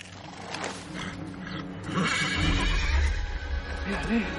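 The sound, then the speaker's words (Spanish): A horse neighs and rears, then gallops off beside a lake in an adventure film scene; a loud, shrill whinny rides over heavy hoof clatter and a low rumble that swells midway and stays strong to the end. “Su caballo levanta las patas al aire y se marcha cabalgando.”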